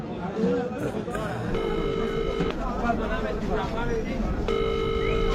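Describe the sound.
Ringback tone heard while calling someone: two long, even tone bursts sound beneath continuous conversation, separated by a few seconds of talk.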